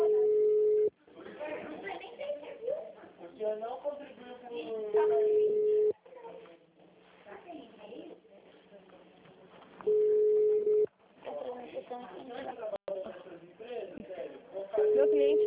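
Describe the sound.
Telephone line tones while calling a Santander bank branch, with steady mid-pitched tones recurring several times between stretches of a recorded voice.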